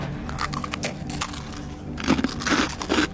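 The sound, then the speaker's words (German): Someone bites into crispy Zebra Samosas, making a few crackling crunches. The crunching grows louder and denser in the second half. “Hier, Zebra Samosas, iss mal einen Happen. Danke.”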